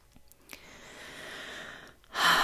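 A person takes a slow, deep breath in, a soft airy hiss that swells gently over about a second and a half and ends with a louder, sharper rush of breath.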